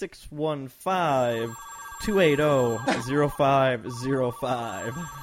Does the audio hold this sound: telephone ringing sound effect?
yes